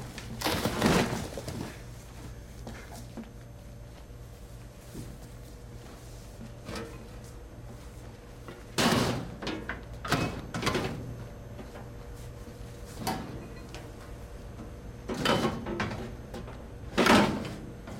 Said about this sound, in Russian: Кладет на коробки и запирает дверь на ставни.